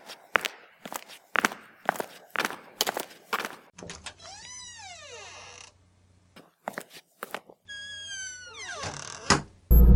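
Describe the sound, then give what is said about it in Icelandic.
Footsteps of someone staging a walk-out: a run of many quick, uneven steps, then long wavering creaks with a few more steps in between, ending in a loud thump. “Nú ætla ég að þykjast ganga út”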